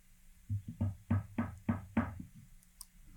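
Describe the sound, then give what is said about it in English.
Knocking on a door comes as a quick run of evenly spaced, fairly soft raps, each a short thud, followed by a brief quiet tail. “At one point, you get a package that's delivered to your door. All right. You hear a knock”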